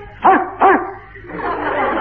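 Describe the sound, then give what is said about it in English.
A dog barks twice in quick succession, two short, bright, mid-pitched yaps, followed by a softer, noisier stretch of sound. “Shh, be quiet. Be a good dog.”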